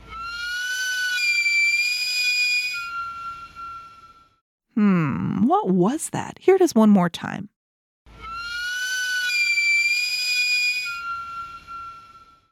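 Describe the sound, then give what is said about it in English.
A sweet potato (camote) vendor cart's steam whistle sounds in two long, steady, high-pitched blasts of about three to four seconds each, with a person talking in the gap between them. “A camote cart. A camote cart.”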